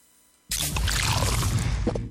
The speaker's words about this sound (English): That is the sound of the new 500ml Castle Lite can.